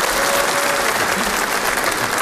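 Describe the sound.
Audience applause at a stand-up comedy show: dense, steady clapping that holds at an even level for the whole clip, with no voices over it.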